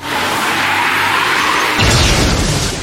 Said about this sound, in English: Attack. Choose Wing Slash.